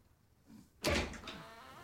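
A door set into a mattress swings open, a dreamlike effect leading into a town street. After a quiet lead-in, one sudden loud burst of noise hits and then fades slowly.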